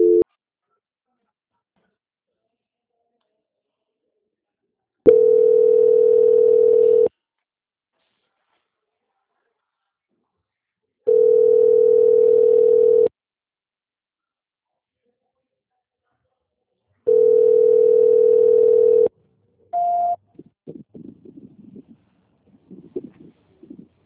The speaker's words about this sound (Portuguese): peço que o senhor aguarde em linha que eu vou transferir o contato para o controle de qualidade que vai dar continuidade à sua contratação.